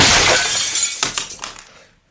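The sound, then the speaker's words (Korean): Glass in a framed photo shatters when struck by a thrown remote in a living room: a loud, bright burst of breaking glass, then a few sharp tinkling fragments that fade to silence. “화를 참지 못하고 조지 마이크를 향해 리모컨을 던졌다. 유리가 깨져 거실 바닥에 튀었고 사진은 반쯤 앞으로 고꾸라졌다.”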